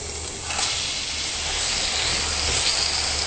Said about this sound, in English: And then we're going to flavor it with the onion, the garlic, the fennel, and the green chilies. So I'm going to add that in.